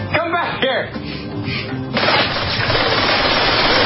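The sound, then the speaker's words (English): Gunfire in a VR shooting video game: a voice speaks briefly at first, then a loud, rapid, continuous clatter of shots takes over and runs steadily to the end. “I get lost in all the shooting.”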